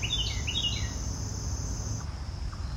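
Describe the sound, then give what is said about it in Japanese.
Birds call in a forest on a warm late morning after rain, with a few short, high chirps early on over a steady, high insect-like drone that runs through the whole clip. “結構鳥の声が聞こえてきてます。”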